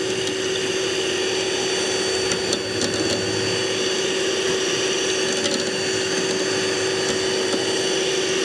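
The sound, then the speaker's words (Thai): An electric mixer runs on low speed, mixing a still-runny water-in-oil skin cream. Its steady, even motor hum has a fixed tone and a faint whirring texture, with no talk. “อันนี้เราเปิดเบอร์ผสมไม่แรงนะคะเพราะว่าเดี๋ยวมันจะกระเด็น ในขณะที่ส่วนผสมเนี่ยมันยังเหลวอยู่ยังไม่ข้นนะคะก็อย่าเปิดแรงเปิดประมาณนี้นะคะ”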